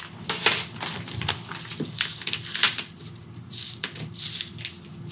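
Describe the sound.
A mailed paper envelope being opened and handled, heard as many crisp crinkles, rustles and sharp paper snaps in an uneven, continuous run, with no talking.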